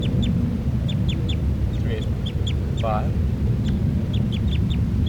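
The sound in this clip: Bird calling: many short, high chirps repeated in quick pairs, with a brief buzzy rattle in the middle, over a loud, steady low rumble.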